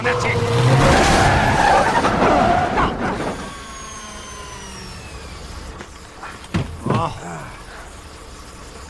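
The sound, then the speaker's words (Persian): A car engine roaring loudly as the driver accelerates hard for about three seconds, then settling to a steadier, lower rumble, with a few brief sharp bursts near the end. “گاز بده”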